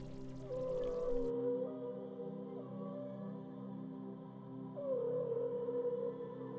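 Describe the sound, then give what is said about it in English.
Whale song: two long, moaning tonal calls that bend in pitch, set apart by a pause and sounding over a steady, sustained drone. “The whales begin to bring you back to the temple of Neptune, bring you back to the temple.”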